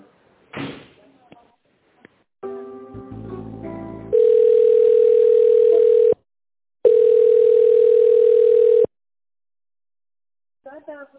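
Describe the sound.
A telephone ringback tone plays while an office call is being transferred: two long, steady mid-pitched tones of about two seconds each, split by a short pause. Clicks and buzzy tones come before them.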